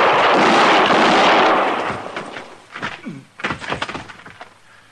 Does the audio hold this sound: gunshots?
yes

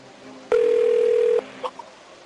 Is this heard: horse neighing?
no

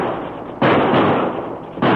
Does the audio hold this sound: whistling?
no

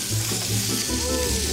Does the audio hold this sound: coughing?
no

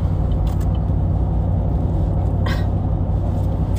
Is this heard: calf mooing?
no

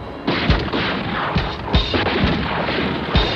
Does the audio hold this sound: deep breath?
no

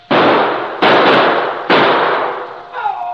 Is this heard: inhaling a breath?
no

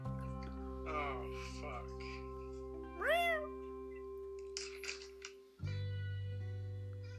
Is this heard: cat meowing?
yes

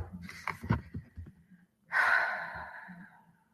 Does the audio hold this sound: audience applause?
no

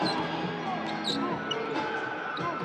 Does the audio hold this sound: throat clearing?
no

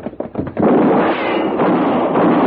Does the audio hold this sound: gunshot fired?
yes

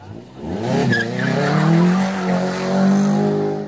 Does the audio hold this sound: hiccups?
no

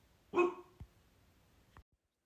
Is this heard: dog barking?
yes

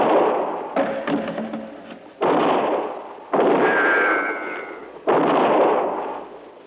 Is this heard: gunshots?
yes

